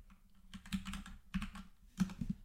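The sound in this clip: Computer keyboard typing comes in three short bursts of quick, soft clicks, separated by brief pauses, with no talking.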